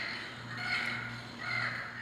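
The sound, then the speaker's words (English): Harsh, raspy Yucatan parrot squawks play from an educational push-button speaker on a residential stairwell railing. The scratchy call runs steadily, swelling twice over a low electrical hum. “And here's a button for the Yucatan parrot.”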